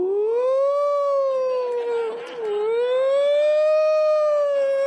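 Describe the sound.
A voice imitates an ambulance siren with one long, loud, sustained 'ooh' howl that rises, wavers, dips briefly in pitch around the middle, then swells back up, alone with no other sounds.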